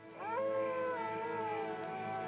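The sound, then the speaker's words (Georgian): A coyote howls in the desert at night, a long sustained wail that rises at the start and then slowly drifts lower in pitch, holding steady and fairly loud throughout. “მათ კოიოტები უერთდებიან.”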